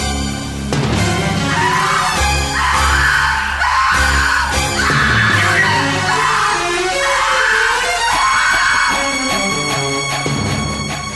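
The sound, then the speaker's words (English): A woman screams in a horror film scene, loud sustained yelling and shrieking that carries through the whole stretch over a dense, continuous background. “the way that she yells, and then later, remember the scene when she finds Linda's head floating, and she starts just flipping out.”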